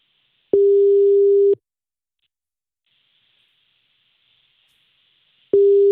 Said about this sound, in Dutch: Ja, we gaan nu bellen. We gaan nu je vader bellen.